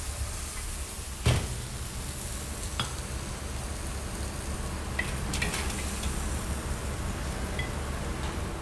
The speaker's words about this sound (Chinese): 大火翻炒断身之后即可出锅装盘。